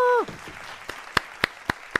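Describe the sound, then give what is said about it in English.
A handful of slow, evenly spaced hand claps, about five sharp single hits, follow a brief voice at the start, with near silence between each clap. “More applause. I love the accolades.”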